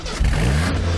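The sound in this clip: A car engine at an auto repair shop starts with a sudden burst and then revs, its low tone climbing in pitch over about a second. The sound is loud and steady, with no talking.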